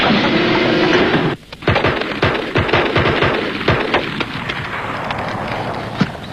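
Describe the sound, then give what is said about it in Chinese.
Gunfire as police shoot warning shots into the air at armed bandits: after a brief drop in a steady background noise, many sharp shots follow in irregular bursts, loud and without voices. “你们俩干什么？一个不开枪，一个对天开枪。”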